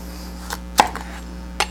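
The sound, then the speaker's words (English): Knife cutting thin slivers around a core of seeds, a few sharp, faint chopping taps spaced irregularly over a steady low hum. “So what we want to do is we want to cut little thin slivers around the seeds. Kind of like this.”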